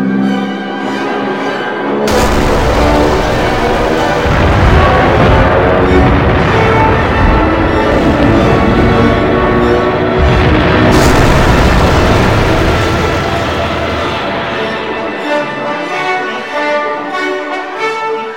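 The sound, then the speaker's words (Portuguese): A heavy WWII artillery barrage, with Soviet cannon and rocket fire answering German bombardment, roars loudly and continuously, a dense rumble of overlapping booms and blasts that carries through the whole stretch with only slight swells. “Os pesados bombardeios da artilharia alemã eram contra-atacados por violentas barragens da artilharia soviética com disparos de canhões e foguetes.”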